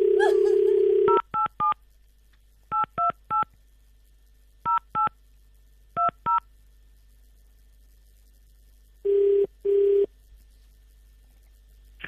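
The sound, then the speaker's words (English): Touch-tone dialing on a telephone calling a radio station: a steady dial tone, then ten short keypad beeps in groups of three, three, two and two, followed by two longer, lower tones. “Dial again, sweetheart?”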